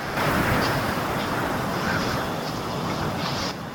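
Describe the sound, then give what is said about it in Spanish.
Strong wind blows in a loud, continuous roar that stays steady and dense throughout, with no pauses or distinct gusts standing out. “Se escuchaba el viento que soplaba fuertemente.”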